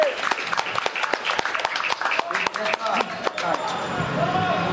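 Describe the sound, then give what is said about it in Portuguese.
Audience applause at a poetry performance during a debate marking the centenary of the 1917 general strike: many sharp, uneven claps with a voice speaking and calling out over them, the clapping thinning toward the end. “uma salva de palmas aí pro Mano José, certo?”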